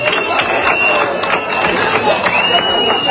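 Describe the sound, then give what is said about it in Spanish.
A crowd at a street protest in Ceuta applauds and cheers for national police, with dense, continuous clapping, shouting voices and high whistling throughout. “Este aplauso va para ustedes,”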